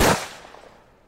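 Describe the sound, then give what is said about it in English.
A gunshot, a sound effect for a narco singer shot in Sinaloa, breaks out as one loud, sharp blast at the very start and then fades away in a long, dwindling tail. “the Don catches Chalino slipping in Sinaloa and puts two bullets in the narco singer's head.”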